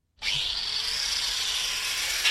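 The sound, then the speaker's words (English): Steady, harsh drilling noise as a worker hand drills parts for a custom-made electric motor at an electric motor works in Berlin, a continuous bright grinding whir that starts abruptly and runs without a break, with no talk. “At the Menzel Electric Motor Works in Berlin, a worker hand drills parts that will go into a custom-made electric motor”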